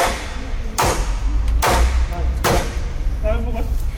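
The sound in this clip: Thumping from workers installing street fencing in Pamplona: three loud, evenly spaced impacts over steady background noise, with a faint voice near the end.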